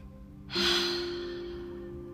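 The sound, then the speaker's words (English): A deep exhale during a guided breathing exercise: one long breath released abruptly, loudest at its start, then tapering slowly over a steady low tonal background. “holding it for a count of 3, 2, 1, exhaling out the breath,”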